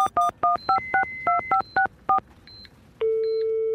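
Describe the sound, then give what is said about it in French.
Touch-tone beeps of a telephone number being dialed come in a rapid, regular series of short two-note electronic pips, followed by a few higher tones and then a steady, sustained line tone, with no voices. “maintenant il faut que j'appelle Nathalie.”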